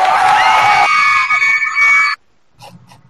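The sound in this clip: Women screaming and cheering as a sound effect: a loud, shrill burst of high overlapping cries lasting about two seconds, then cut off abruptly, leaving faint, brief sounds behind.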